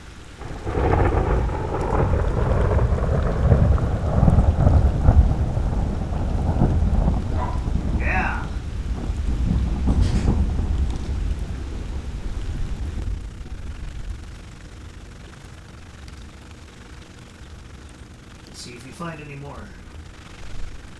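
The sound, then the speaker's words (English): A passing thunderstorm with steady rain and deep rolling thunder that rumbles loudly through the first half, then eases to a quieter hiss of rain as the storm moves away. “Storm is slowly going away.”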